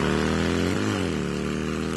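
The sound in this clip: A new motorcycle's engine runs loudly with a steady, buzzing drone that briefly dips and climbs in pitch partway through, like a short rev.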